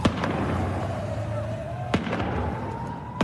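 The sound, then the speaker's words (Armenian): Gunfire from security forces on a rooftop aimed at protesters: three sharp, loud cracks spaced well apart over a steady, noisy background. “Այս տեսագրության մեջ տեսնում ենք, թե ինչպես են բնակելի շենքերից մեկի կտուրին դիրքավորված իրանցի ուժայինները կրակ բացում բողոքի ցույցի մասնակիցների ուղղությամբ։”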